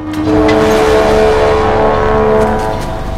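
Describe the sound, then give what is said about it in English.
Motorbike driving off downtown, its engine a loud, steady, buzzing drone with a strong tonal hum that holds for a few seconds before easing slightly at the end. “She dumps Krebs over the back of her bike and drives to a building downtown.”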